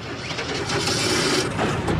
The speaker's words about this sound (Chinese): 黑木斯开动了摩托车，两个人又向相反的方向奔去。